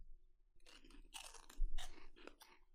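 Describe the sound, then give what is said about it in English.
Crunchy biting and chewing on a stale chip, several dry crackling crunches in close succession, clear and fairly loud with no talk over them. “Can I be honest? I got a bunk chip. I got a stale. I got a stale one.”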